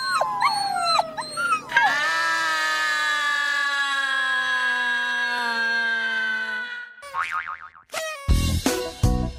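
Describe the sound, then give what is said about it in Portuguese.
A family dog gives a long, drawn-out, howl-like cry: a steady, high, tonal wail held for several seconds after a few short wavering yelps, then broken, sharper calls near the end. “Rex, o cachorro da família, deu um baita susto em Dona Filó e Dona Carminha. Fazer um grunhido”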